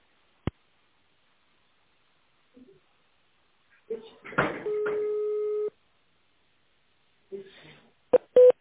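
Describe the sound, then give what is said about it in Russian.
Telephone tones sound as an extension number is dialed on an office phone line: a click, a single steady beep lasting about a second, then a few short tones near the end, with quiet gaps between them. “Наберите его в тональном режиме.”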